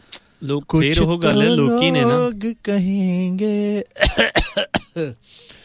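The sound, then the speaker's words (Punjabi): A few sharp, harsh coughs break in near the end of mostly steady, voiced talk, given as a genuine cough rather than a deliberate one. “ਜਾਣ ਕੇ ਨਹੀਂ ਸੀਗਾ ਸੱਚੀ ਖਾਂਸੀ ਆ”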